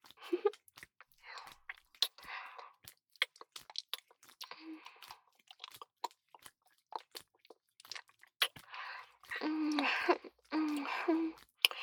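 Chewing chocolate: soft, moist crunches and mouth sounds come in irregular bursts, quiet between bites and thickening into a denser run of chewing near the end.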